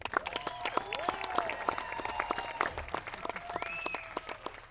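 Dense audience applause welcomes a solo fiddle player as she is introduced to perform with a live band. Loud, steady clapping fills the whole stretch without a break.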